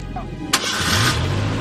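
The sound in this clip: A truck engine starts about halfway through with a sudden burst, then settles into a steady, loud rumble that continues to the end.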